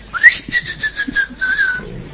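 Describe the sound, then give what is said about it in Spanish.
A shrill whistle said to announce a mythical folklore creature at night: one long, sustained high whistle that starts with a quick upward slide, then holds a steady, slightly wavering tone for over a second before fading, over a faint low rumble. “Se anuncia con un chiflido ensordecedor”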